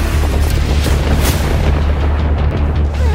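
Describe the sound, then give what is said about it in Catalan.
Explosions in a film make a loud, dense, continuous booming roar. The blasts run together without any pause, and deep rumble dominates throughout. “Moltes explosions.”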